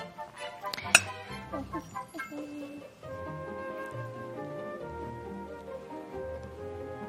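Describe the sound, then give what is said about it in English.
Clinks and scrapes of a spoon in a bowl as dry ingredients are mixed, with one sharp clink near the start followed by irregular knocks. “Mix it up nicely so that all the dry ingredients go through. Mix it. Nice. So it's all mixed around. That's good. Keep mixing it.”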